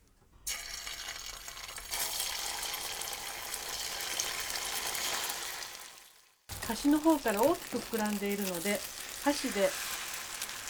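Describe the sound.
Egg mixture frying in a hot oiled pan gives a steady bright sizzle for about six seconds, stops briefly, then crackles again while a voice speaks over it.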